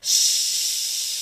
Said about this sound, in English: One would recoil at the hissing of my snakes.